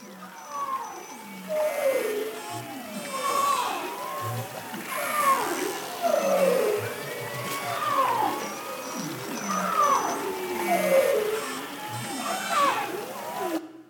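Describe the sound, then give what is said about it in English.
Arctic marine mammals call underwater in spring, a dense chorus of overlapping moans, sweeping whistles and rising and falling wails that swells and fades in repeated waves without pause. “Arctic marine mammals live in a rich and varied underwater soundscape. In the spring, it can be a cacophony of sound.”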